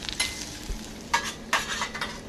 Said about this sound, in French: Et je vais faire revenir toutes ces aromates dans une casserole avec de l'huile de tournesol.